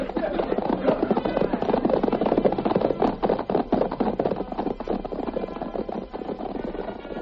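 Hoofbeats of several horses being ridden off, a dense, rapid clatter that keeps going loudly throughout.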